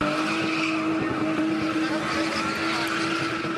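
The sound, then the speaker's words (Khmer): A car spinning fast in tight circles during a spinning motorsport event in South Africa, with engine roar and steady squealing tyres, loud and unbroken throughout. “នេះជាកីឡា spinning ដែលអ្នកបើកបរជិះបង្វិលរថយន្តជារង្វង់យ៉ាងលឿន”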